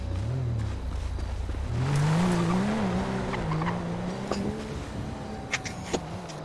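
A BMW car in a video game, its engine droning steadily with a wavering pitch that rises and then levels off, plus a few faint sharp clicks near the end.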